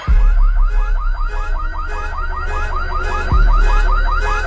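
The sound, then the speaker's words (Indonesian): A car alarm sounding by itself at midnight, a loud, steady run of rapid repeating warbling chirps that cycles on and on without pause. “Setiap tengah malam, alarm mobilku itu berbunyi sendiri.”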